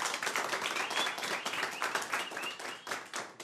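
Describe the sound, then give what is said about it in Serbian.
Lively applause greets an accordionist at a tavern-style table. Many crisp, distinct hand claps blend into a brisk, continuous round. “Dušane, jedan veliki aplauz, molim vas.”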